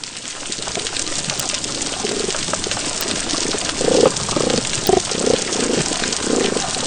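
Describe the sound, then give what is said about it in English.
Snapping shrimp crackle densely throughout a healthy coral reef underwater soundscape, a continuous bustling hiss of tiny clicks, with a few low tonal calls rising above it in the second half. “that's so much more bustling. So, you know, it's an incredible soundscape when you hear a healthy coral reef. And in that, you could hear the snapping shrimp, many more of them.”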